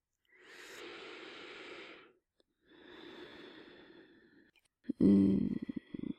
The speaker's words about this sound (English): A full deep breath and a slow exhalation.